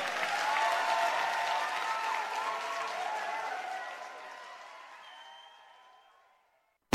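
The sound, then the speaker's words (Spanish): Applause from an audience called on to clap for a guest: broad, steady clapping mixed with crowd noise that slowly fades to silence. “Aplauso para Pablo Cifuentes, por favor.”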